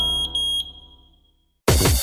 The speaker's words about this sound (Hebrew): התקינו גלאי עשן בביתכם. זה פשוט להציל חיים.